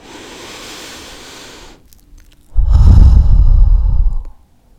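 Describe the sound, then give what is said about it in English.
Deep breathing in a guided meditation: a soft, airy breath is followed by a short pause, then a much louder, heavier rush of breath that fades out. No speech. “please close your eyes and let's inhale and exhale together. 1 more time.”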